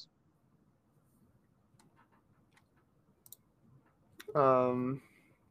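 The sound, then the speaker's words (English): Typing on a keyboard gives faint, scattered clicks and taps, followed by a brief voiced sound near the end. “Sorry, I need to type it in.”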